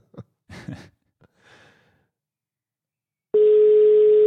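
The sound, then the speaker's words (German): A telephone call to Spain produces a loud, steady line tone at a single pitch that starts abruptly and holds to the end, preceded by a few soft breaths and murmurs. “So, mal gucken, wie die Verbindung nach Spanien ist.”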